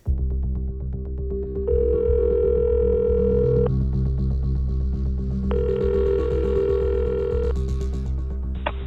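Ringback tone sounds while a phone call is placed to a contact found through an online CV. Two long, steady ringing tones are separated by a pause, loud and clear over a constant low hum.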